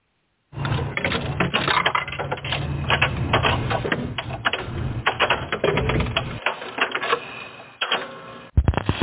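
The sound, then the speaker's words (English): A dime dropping into the Erie House jukebox, followed by a long run of dense mechanical clattering and ticking, steady and fairly loud, with a brief lull near the end before another clunk. “I did find... a dime since inflation has hit the Erie House jukebox. Uh-oh. So if you have found the proper selection, I have the dime to put into the machine.”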